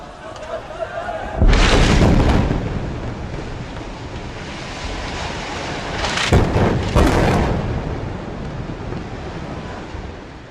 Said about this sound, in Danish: Lyden af bomber har runget gennem Gaza